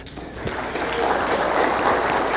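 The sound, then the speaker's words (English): Applause in a church for members of the audience returning, a dense, hissing wash of clapping that grows slightly louder and then holds steady. “You're going to have to clap for each person here.”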